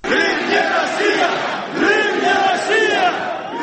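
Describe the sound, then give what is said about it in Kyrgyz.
A crowd of Crimean Tatars shouts together at a rally, loud massed voices rising and falling in surging waves of chanted slogans without pause. “Алар да өздөрүнүн митингин өткөрүп, Украина Орусия эмес деп кыйкырып турушту.”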